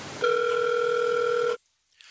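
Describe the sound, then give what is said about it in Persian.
A video call rings out as a single steady electronic tone with two pitches. It holds evenly for about a second and a half, then stops abruptly into silence. “ما میریم یه تماس تصویر با ماما داشته باشیم امیدواریم جواب بده داره زنگ میخوره”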